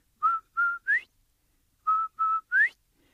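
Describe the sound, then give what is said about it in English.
A whistle is blown in a Cherokee animal tale, giving clear, fairly high notes in two groups of three. Each note is short, the third note of each group slides upward, and a pause of about a second separates the groups. “So old Turtle lets Quail borrow his whistle. So Quail's standing there. He makes that beautiful sound.”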